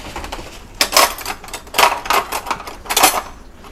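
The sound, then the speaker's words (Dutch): A knife scrapes and clinks against the inside of a jar as the contents are stirred. A few sharp, clattery bursts come at irregular intervals, with quiet rustling between them. “Deze moet ik dus roeren. Dus het is minder. En ik vind dat gedoe. Want ik wil niet morsen en het wordt nooit eh, perfect geroerd. Dus eh, daarom vind ik het gedoe. Maar ik ga het nu wel doen. Met een mes.”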